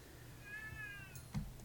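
A cat meows once, faint and drawn out, followed by a brief soft thump; no one speaks.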